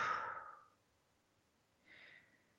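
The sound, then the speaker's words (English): Slow breathing in through the nose and out through the mouth during a guided relaxation exercise: two soft, airy breaths, the first stronger and longer, separated by a quiet pause, faint and without talk. “And so we'll breathe in and breathe out. And breathe in your nose and breathe out your mouth.”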